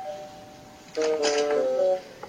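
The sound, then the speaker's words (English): A doorbell chime rings in a family home during a meal: a clear, steady tonal ring lasting about a second, alone and without voices. “Suddenly the doorbell rings”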